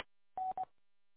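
Two DTMF touch-tone beeps sound on a radio repeater, a longer steady tone followed after a brief gap by a shorter one, clear and alone after a small click at the start.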